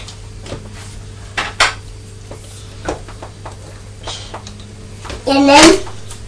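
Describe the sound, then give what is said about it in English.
Sandwiches being put back into a blue plastic pot and cheese biscuits into their packet: a few light plastic knocks and clicks, then a louder rustling clatter near the end, with brief vocal sounds. “Yes. I'm going to put the sandwiches. Blue. In this blue pot. Blue. And the little cheese biscuits can go in back in the packet, can't they?”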